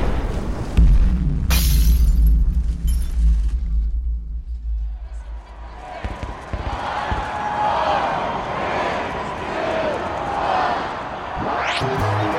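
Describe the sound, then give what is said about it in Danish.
An explosion sound effect: a heavy low boom with shattering debris that rumbles for a few seconds and fades, followed by a sustained noisy wash with scattered crackles and a rising whoosh at the end. “Kan jeg ikke lige få en eksplosion?”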